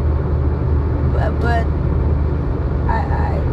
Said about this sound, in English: Forgive me, I'm in the vehicle.